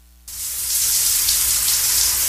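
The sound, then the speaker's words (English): Shower running: after a brief quiet moment the spray switches on with a sudden rise into a steady, bright hiss of falling water that holds evenly throughout. “It's time for me to take a shower. By golly, because I could use one.”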